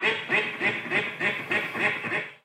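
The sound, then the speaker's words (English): A duck with her duckling quacks in a steady, evenly spaced series of nasal quacks, moderately faint, with no other sounds. “Here's a duck with her baby duckling.”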